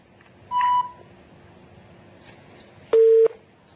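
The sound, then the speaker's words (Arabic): Telephone busy tones after a call-in caller's line drops, heard as two loud, steady electronic beeps: a shorter higher tone, then after a gap a lower, longer one, with faint hiss between. “قطع اتصال.”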